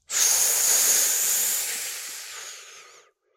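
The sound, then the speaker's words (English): A single deep breath drawn through pursed lips during a breathing exercise: a long airy hiss that starts abruptly, then slowly fades over about three seconds before stopping. “So purse your lips. Try to breathe as low as you can. Try to get it as deep as you can into your system. Let's do this 5 times.”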